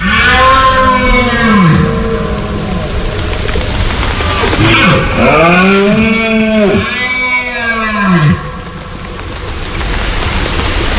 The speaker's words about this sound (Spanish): habrá empezado a sonar en el monte el sonido de la berrea de los ciervos. Este es el sonido de septiembre hasta bien entrado octubre.